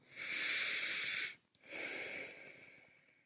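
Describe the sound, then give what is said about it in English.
A gentle, deep cleansing breath, two long airy rushes of air separated by a brief pause, the second softer and gradually fading, with no talking. “Let's take a gentle, cleansing breath together.”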